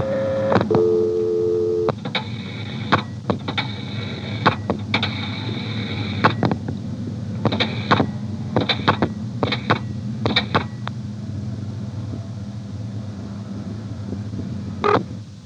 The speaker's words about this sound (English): I'm going to dial 670, the director will then drop, and then 2111, which is a vacant number.